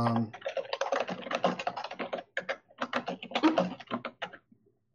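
Rapid typing on a computer keyboard: a dense, uneven stream of many quick key clicks with brief pauses, moderately loud, trailing off into silence at the end.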